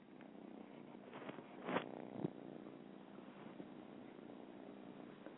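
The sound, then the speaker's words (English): Purring of a little grey kitten, a faint, continuous low rumbling purr with a couple of brief, slightly louder sounds early on. “Now, that noise is actually my cat purring.”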